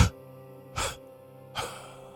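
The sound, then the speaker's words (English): Three forceful exhalations in a breathing exercise, evenly spaced about a second apart, each a short breathy burst over a low steady drone. “Long breath in. Hold. Three death breaths out.”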